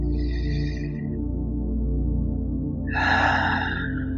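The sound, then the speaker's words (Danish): Deep breaths drawn down into the belly during a guided relaxation exercise. Two airy, breathy rushes, one at the start and a louder one later, sit over a steady low humming musical drone, with no talking. “Endnu en dyb indånding helt ned i maven.”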